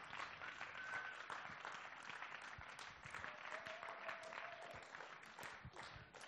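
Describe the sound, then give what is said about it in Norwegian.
An audience applauds a panel with a soft, dense patter of many hands clapping that continues steadily throughout. “Kan vi ikke klappe ned panelet, og så sier vi takk til dem?”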